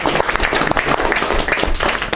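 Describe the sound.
An audience claps for department heads at an appointment ceremony, producing a dense, steady patter of many hands with no pause. The applause is loud and even throughout.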